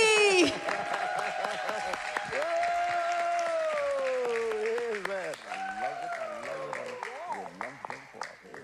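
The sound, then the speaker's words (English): An audience claps for a moderator at a church gathering, under a prominent sustained, wavering tonal line like a held voice or music. The clapping stays steady, then becomes lighter and more scattered near the end. “Walk fam, please put your hands together for our moderator, Gif Ogunwale.”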